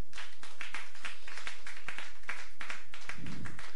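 Congregation clapping to acclaim God during a church worship service, a dense, loud, steady run of many overlapping hand claps with no voices.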